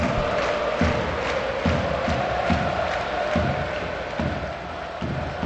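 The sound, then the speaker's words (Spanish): A football stadium crowd at Camp Nou chants 'campeones' over and over. The massed voices form a loud, continuous roar with regular rhythmic pulses. “ahora al Camp Nou ya canta eso de campeones, campeones, campeones. Escuchemos.”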